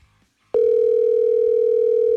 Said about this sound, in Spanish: vamos a marcarle mejor de aquí de WhatsApp. Marcamos de WhatsApp